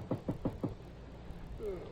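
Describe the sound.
Four quick, fairly soft knocks on a door, evenly spaced in a short burst, heard in a dim room where a man lies restless in bed on an early Sunday morning.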